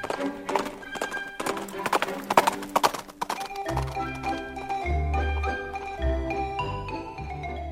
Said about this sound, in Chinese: 还有马蹄奔跑的声音